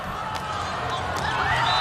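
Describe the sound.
Volleyball bounced on the court before a serve during a match, producing a few dull thuds over a steady, loud crowd murmur.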